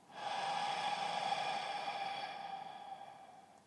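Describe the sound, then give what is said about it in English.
A slow, deep breath drawn in through the nose and let out through the mouth, a soft, steady airy rush with a faint whistling tone that fades gently toward the end. “Gently close your eyes and just take a nice deep breath in through your nose and out through the mouth.”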